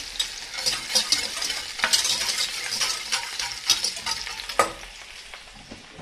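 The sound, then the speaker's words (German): Butter melting in a pot and stirred with a whisk: a continuous soft sizzle with scraping, clinking whisk strokes and a few sharper metallic ticks. “Die Butter in einem Topf zerlassen. Aufpassen, dass es nicht zu dunkel wird. Dazu nehmt ihr einen Schneebesen.”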